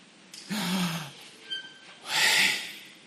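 A deep breath is drawn in, and after a brief pause it is let out as a long, breathy voiced exhalation, louder and hissier than the inhale, inside a tent with wind blowing.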